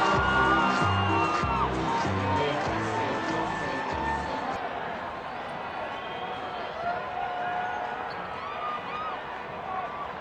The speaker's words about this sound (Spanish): Resultado final, anulado por recibir gritos y sonido de pirotecnia. Solo se computan aplausos y ningún sonido más.